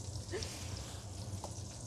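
Sausages browning in a frying pan give off a steady, continuous sizzle with fine crackling. The sound is moderately quiet and unbroken throughout.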